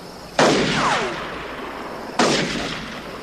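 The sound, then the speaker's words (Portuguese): Two loud, sharp gunshots fired wildly, well apart, each with a long, fading rumbling tail; a thin, falling whistle trails after the first shot. “Droga, atira pra todo lado”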